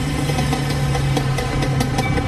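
An old motorbike's engine running with a steady low drone, regular faint pulses ticking through it, continuous and fairly loud with no speech.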